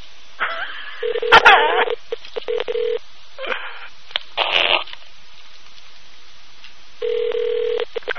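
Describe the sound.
Ringback tone on a prank phone call: two steady, buzzing rings about a second long, well apart, with brief voices and other short line sounds between them.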